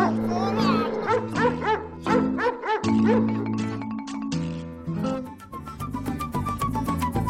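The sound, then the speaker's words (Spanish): A dog barks and yelps while attacking someone: many rapid, bending yips and barks, loud and overlapping, mixed with frantic human shouting throughout. “¡No, vale! ¡No, perro malo! ¡Suéltame, suéltame! ¡No, no, suéltame, suéltame!”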